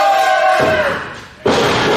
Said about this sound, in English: Scooping slam.